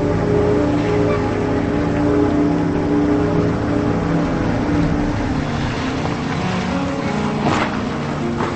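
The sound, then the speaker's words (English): Steady engine drone of a Range Rover driving down a dark dirt road, a continuous low rumble that holds even in level throughout, with no talking. “Later, she drives down a dark dirt road.”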